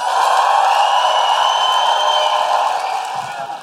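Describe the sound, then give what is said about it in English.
A live audience applauds, cheers and whoops to welcome an opera singer. The dense, sustained roar of clapping and shouts holds steady, then eases slightly toward the end. “Please put your hands together and make an enormous, guilty feminist, woo-hooing, operatic welcome for Nadine Benjamin!”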